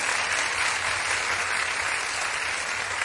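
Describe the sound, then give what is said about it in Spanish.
Dense audience applause at a live cumbia concert, a loud, steady wash of many hands clapping together without a break for the whole stretch. “Un aplauso para ella. Que se ponga de pie, un aplauso para ella.”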